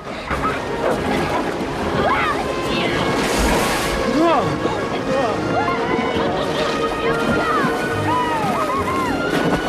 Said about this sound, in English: They hit the rapids, and the boat dips and bounces.